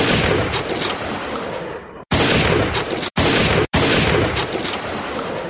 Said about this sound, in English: Friggin' 21 gun salute.